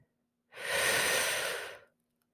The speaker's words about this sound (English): Let's take one more deep breath.